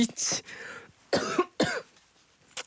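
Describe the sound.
A few harsh, breathy coughs from one person, in short bursts separated by brief pauses, the last one shorter and fainter than the others.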